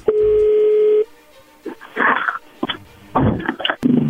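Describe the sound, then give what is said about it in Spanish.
A telephone dial tone sounds steadily for about a second as a phone is dialed, then gives way to several brief, irregular noises. “A ver qué pasa, ahí se está marcando, no haga ruido, por favor.”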